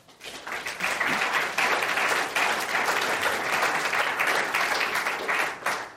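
Audience applause welcoming two reporter guests, one a former Fortune writer and one a Wall Street Journal energy reporter, at a climate discussion event: dense, steady clapping that swells quickly and holds loud throughout.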